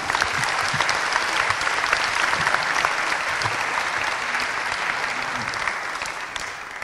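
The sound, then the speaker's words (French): Audience applause: dense, steady clapping that fills the whole stretch at an even loudness and eases off slightly at the very end. “Et on peut l'applaudir, je pense. Bravo.”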